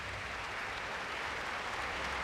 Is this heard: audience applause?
yes